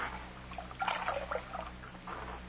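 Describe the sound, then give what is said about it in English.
Water is poured over a bullet wound in a man's chest to wash it, a brief run of soft trickling and splashing over a low, steady hum. “Let me wash his wound. Take a look at it. I'll wet the scar.”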